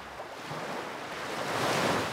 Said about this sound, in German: Blauer Himmel, sanfte Wellen, ein leichter Luftzug.